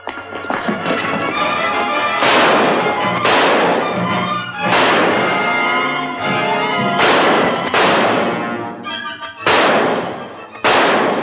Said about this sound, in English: Okay, don't shoot no more.